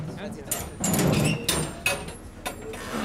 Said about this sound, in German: Ich will erst die Türen aufmachen.